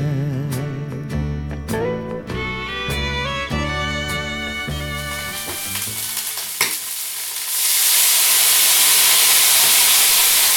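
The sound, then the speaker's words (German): Onions frying in a pan in Austria, with bacon nearby. After music fades out, a loud, steady sizzling hiss takes over for the last few seconds. “So, ihr hört die Zwiebeln brutzeln, vor mir liegt der Speck.”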